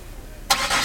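A car engine starts on a rainy December evening as friends drive to Ekenäs; after a brief quiet moment, the engine catches abruptly and settles into a steady running hum.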